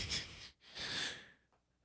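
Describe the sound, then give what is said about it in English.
A voice imitates heavy breathing: two long, noisy, hissing breaths, the second trailing off into quiet. “I just always imagine that he's breathing heavy. He's just always like.”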